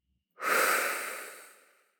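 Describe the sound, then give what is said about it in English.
A single deep breath, a soft airy rush that swells quickly and then fades slowly over about a second and a half, quiet and alone. “we're going to take a deep breath in, holding that intention, and taking a deep breath out.”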